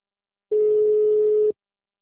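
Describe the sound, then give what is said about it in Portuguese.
A phone line tone after a dropped call: one steady, mid-pitched electronic beep lasting about a second, alone and loud, with silence before and after. “Ah, caiu a ligação?”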